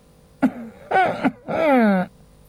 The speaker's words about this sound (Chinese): 他习惯性的轻咳了两声